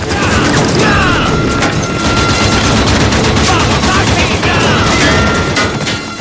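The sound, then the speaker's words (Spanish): Gunfire from a prairie shootout in the 2007 western film 3:10 to Yuma. A loud, dense barrage of shots and crashing impacts runs continuously from start to finish. “En la pradera, Dan Evans y sus hijos advierten el tiroteo.”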